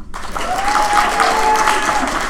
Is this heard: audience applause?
yes

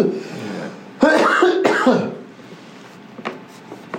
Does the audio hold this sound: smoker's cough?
yes

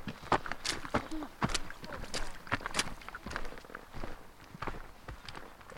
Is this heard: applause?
no

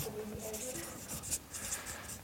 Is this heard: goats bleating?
no

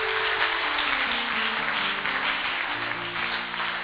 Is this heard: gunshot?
no

